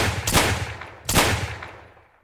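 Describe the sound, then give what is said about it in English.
Two loud gunshots from a handgun ring out about three-quarters of a second apart, each a sharp crack followed by a long, fading echo-like tail. No voices are heard. “the other man pulled his gun, firing 3 shots into my chest.”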